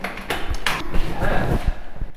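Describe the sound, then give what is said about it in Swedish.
A key works the lock of a locked door in a museum, giving a few sharp metallic clicks and brief rattles, with some talk in the background. “Det är låst. Ska vi se om min nyckel funkar här.”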